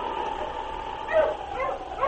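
Short dog yips and barks from a sled dog among a dog team, a few brief high calls over a steady low hum.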